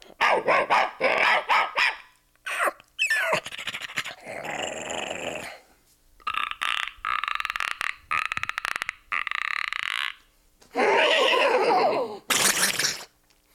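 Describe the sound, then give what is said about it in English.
A voice actor imitates animal sounds, mostly a dog: barks, growls and panting come out in a series of separate vocal bursts with short pauses between them. “Oh, you've also done some animal effects on Dora. Can we hear some of your animal sounds?”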